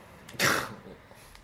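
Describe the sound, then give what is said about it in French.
A single sneeze-like burst from a person during a casual beer tasting among friends, short and fairly loud, rising sharply and fading over a quiet background. “Là, c'est le moment où t'éternues.”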